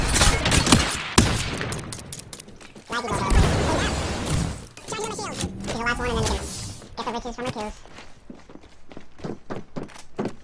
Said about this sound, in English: Opening fire. Reloading.